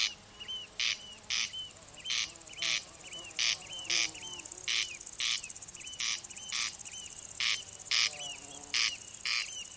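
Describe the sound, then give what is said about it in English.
Corncrakes crexing at night in Ireland: a long series of insistent, rasping double calls repeats steadily over a faint high insect drone. “Typically silent by day, as soon as the sun falls, they unleash their insistent crexing calls, up to 20,000 per night, peaking at 3 a.m.”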